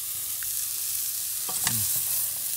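Ginger and curry powder sizzle in a hot pan as salt is added, with a steady, hissing fry and a few brief clinks of stirring, and no talking.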